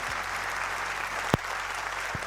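An audience applauds after a Hokkien-language song performance, a steady, even patter of clapping with a sharp knock partway through and a low thud near the end.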